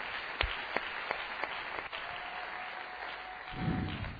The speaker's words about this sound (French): Est-ce qu'on peut acclamer très fort encore une fois de plus pour la parole de Dieu?